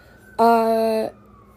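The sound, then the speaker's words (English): Ambulance siren sounding in the background: a single steady, fairly loud wailing tone with strong harmonics that lasts under a second before cutting off, with no talking. “Sorry if you can hear the ambulance in the background.”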